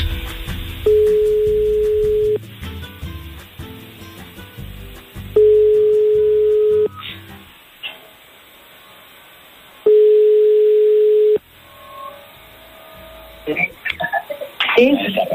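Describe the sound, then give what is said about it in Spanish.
A telephone ringback tone sounds on a call: three steady, mid-pitched tones, each about a second and a half long, separated by pauses of several seconds. Faint background sound runs beneath, and brief clattering sounds come near the end. “Está dando tono, ¿eh?”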